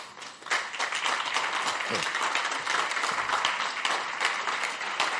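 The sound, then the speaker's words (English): A church audience clapping in praise at the close of a service, a continuous patter of many hands with small swells, a voice briefly audible partway through. “Your clapping is not impressive.”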